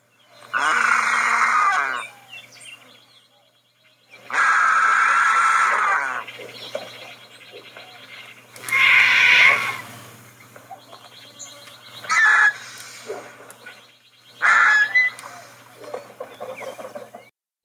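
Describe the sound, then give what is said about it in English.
Low, guttural hisses of turkey vultures, made when irritated or jostling for a spot at a carcass: five harsh, raspy bursts of varying length, separated by short pauses. “I searched the web to find this recording of the low, guttural hisses that turkey vultures make when they are irritated or when they're vying for a better spot on the carcass.”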